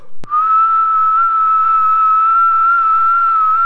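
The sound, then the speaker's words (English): A low, whistled call imitating a robin holds one steady, even pitch for about three seconds after a brief click, clear and alone. “He made one of his low, whistling calls,”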